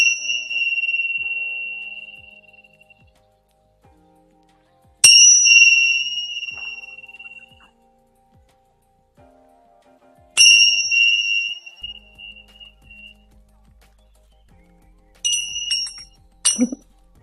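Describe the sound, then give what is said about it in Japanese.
Tibetan bell ringing a clear, high tone, struck a few times with long ringing decays fading into near silence between strikes, ending in a quicker cluster of lighter chimes. “チベタンベル鳴らします。高い音が鳴ります。”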